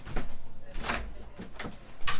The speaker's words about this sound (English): Oh, I should close that door.